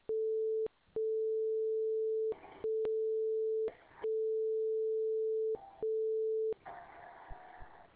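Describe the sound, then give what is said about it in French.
A telephone answering system sounds its steady, mid-pitched electronic beep tone, broken by a few brief gaps filled with short bursts of noise, then giving way to noisy static. “Indiquez votre prénom et votre nom après le signal sonore.”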